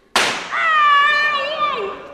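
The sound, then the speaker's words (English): A gunshot fired into a mattress makes a single sharp crack near the start, followed by a long, sustained tonal sound that swells and then slowly fades. “I have shot him in his mattress.”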